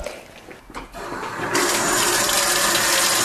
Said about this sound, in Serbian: Prvo ćemo u čaše sipati određenu količinu vode. Obično česmovače